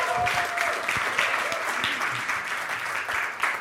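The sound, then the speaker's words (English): A church audience applauds to welcome a speaker at a morning service, a dense, steady wash of many hands clapping that continues throughout. “let's put our hands together and let's welcome Nolan this morning.”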